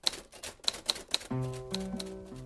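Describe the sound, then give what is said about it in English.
A typewriter being typed on: a few sharp, bright keystroke clacks at uneven intervals, then sustained, steady tones enter and carry on beneath fainter strikes. “Well, that's the status, so to speak, of my life with my beloved typewriter.”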